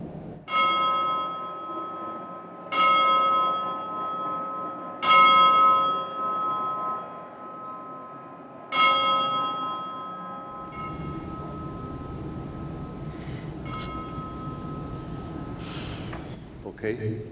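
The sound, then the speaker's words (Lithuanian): A bell rung by an archbishop is struck four times, each clear, ringing tone decaying slowly before the next strike. Afterwards a person talks. “Dabar norėčiau pakviesti savo draugą, arkivyskupą Grušą, paskambinti šio varpu.”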